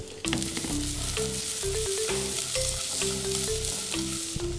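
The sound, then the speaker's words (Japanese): Carrots cut into thin matchsticks sizzle as they are stir-fried in olive oil or butter in a frying pan. The hiss is steady and continuous, and a stepped melodic tone runs beneath it. “ちょっと入れて、フライパンの中でこの人参炒めます。”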